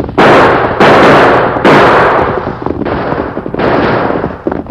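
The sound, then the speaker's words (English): Gunshots fired during a holdup by horsemen on a hillside: several loud blasts in quick succession, each with a sharp attack and a long, ringing tail that runs into the next shot. “Use your guns”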